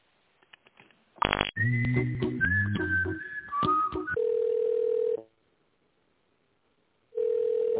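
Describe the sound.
Telephone line tones while a call is transferred. A few soft clicks lead to a burst of dialing tones, then a wavering melodic hold tune, then two steady single-pitch beeps separated by silence.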